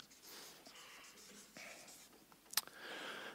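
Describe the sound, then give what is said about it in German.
Marker writing on a flipchart: faint squeaky strokes and soft scratching, broken by one sharp tap, with a thin squeal at the end. “Die Flipchart ist ein bisschen zu klein. Oder dann schreibe ich zu groß. Wiederherstellung will ich noch hinschreiben.”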